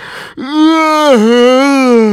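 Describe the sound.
A loud, drawn-out yawn, the mighty yawn of a magical figure in a fairy tale, imitated by a human voice: a brief intake, then a long sustained moaning tone that dips in pitch midway and holds strong to the end.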